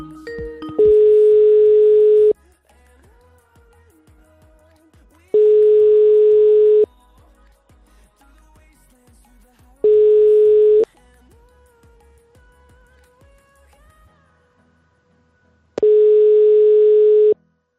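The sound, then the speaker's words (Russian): A telephone ringback tone heard while placing a call: four steady mid-pitched buzzing tones, each lasting about a second, separated by long quiet gaps with faint background noise. “Так, что-то гудков нету. Сейчас будут гудки.”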